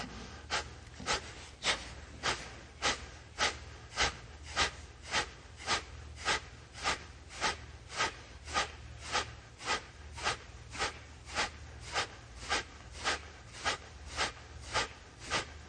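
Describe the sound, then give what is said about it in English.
Kapalabhati yoga breathing: a long, even run of forceful nasal exhales, each a sharp snort-like puff, repeating nearly twice a second at a steady rhythm with no talk. “We'll do Kapalabhati.”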